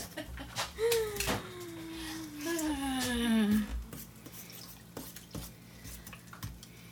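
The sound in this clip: Latke batter mixed in a bowl, with irregular clinks and scrapes of a utensil against the dish at an uneven rhythm and a brief voice sound partway through.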